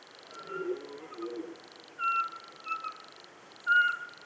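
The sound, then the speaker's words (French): A Eurasian pygmy owl calls from the top of a spruce, giving a few short, mellow, evenly pitched whistles spaced apart, heard over a steady high hiss and faint low background sounds. “Et la petite chouette Chevêchette, au sommet d'un épicéa.”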